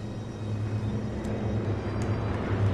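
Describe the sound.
Steady, fairly loud droning of a B-25 bomber's piston engines during a flyover at a memorial park ceremony. It is a low, even rumble with a constant hum and no clear rise or fall, heard alone throughout.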